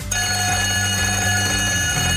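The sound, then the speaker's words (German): A break bell rings in one continuous, loud metallic jangle, steady and unbroken for about two seconds. “Da wird es zwischen zwei Liedern eine Pausenglocke geben. Die klingt so.”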